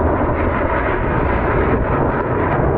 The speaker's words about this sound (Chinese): 没想到三台大推力发动机开加力时候的那个声音，比刚才歼二零低空通场的时候还要震撼人心。